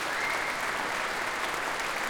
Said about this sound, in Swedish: Som nu är tillbaka på scen tillsammans med Emilia Hoving, som ger slagverkarna en extra rundas applåder efter det här stycket.